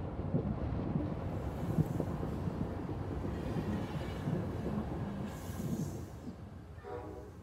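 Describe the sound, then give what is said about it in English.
A train slows down: a steady low rumble of rolling wagons with some wind noise. The sound holds fairly even, then eases slightly in loudness near the end. “The train can be felt slowing down as you drift in and out of awareness.”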